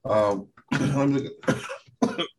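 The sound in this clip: Coughing or throat clearing from someone whose throat caught mid-sentence: a few rough, voiced bursts, fairly loud, separated by short pauses.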